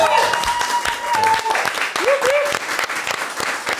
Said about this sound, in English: I do love a round of applause.